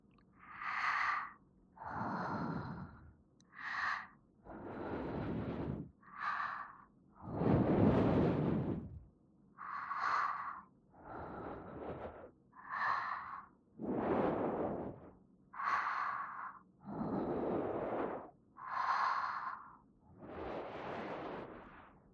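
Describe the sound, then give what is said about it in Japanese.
Whispered exhaled breaths blown into the ears for ASMR, many soft airy puffs in a steady, unhurried rhythm, alternating between brighter hissy breaths and fuller, lower ones. “まずは吐息でお耳を温めて、”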